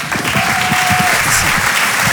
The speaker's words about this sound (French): On peut l'applaudir très très fort. Bravo Guillaume.